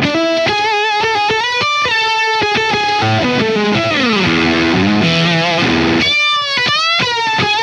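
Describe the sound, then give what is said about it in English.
Loud, distorted electric guitar on a dirty rhythm tone through an Octavia octave fuzz effect, with choppy chords and riffs, a sliding, bending phrase partway through, then more clipped chord stabs. “Even on my dirty rhythm tone, I almost forgot I got an Octavia, which works really well in this thing.”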